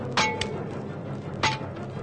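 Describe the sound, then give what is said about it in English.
A sword strikes a cracked stone pillar twice, each blow a sharp, bright clink with a brief ringing tail, the two hits about a second apart over a low steady background. “I wish I had a sturdy axe to use upon this pillar. But it seems my sword serves just as well. Fragments of the stone fall away, even as the creature draws near.”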